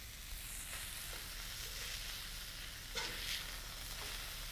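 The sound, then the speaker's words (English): Beef burgers sizzling on a grill, a steady bright hiss and crackle with scattered small pops, continuous and fairly even throughout with no talk. “Now I'm going to flip. Ooh, that burger was better. Better. This is just a mound of beef.”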